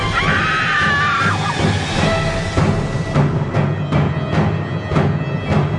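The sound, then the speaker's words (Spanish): A loud scream of terror from a woman confronted by a ghostly figure in her bedroom: a shrill, sustained cry in the first second and a half, over continuous background sound. “lanzó un fuerte grito de espanto.”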